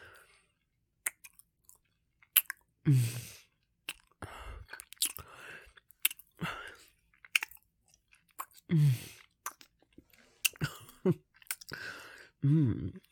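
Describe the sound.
Chewing and biting of sweet food while tasting it: many soft, wet crunching bursts come in irregular clusters, separated by quiet pauses.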